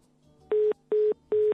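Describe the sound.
Telephone ringing tone of an outgoing call: three identical short electronic tone bursts with even gaps, clear and steady in pitch, with no voices.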